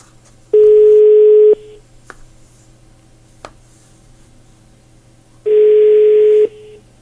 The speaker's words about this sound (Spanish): le estamos marcando a mi papá